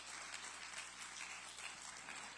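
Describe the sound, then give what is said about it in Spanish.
A church audience claps in praise during a worship service, a faint, even patter of many hands that carries on steadily without pause. “Dele palmas de alabanza, amados hermanos.”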